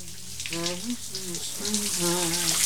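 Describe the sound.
A shower runs as a man washes his face with soap. Continuous spraying hiss is overlaid by a tonal, melodic line that rises and falls.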